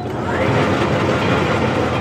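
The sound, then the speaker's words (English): A horsehair picking machine fluffs matted horsehair stuffing for upholstered chairs with a loud, steady, dense roar that holds an even level throughout, with no separate strokes or pauses. “the machine quickly spits out a cloud of teased-out horsehair. It takes it all matted down and just fluffs it up.”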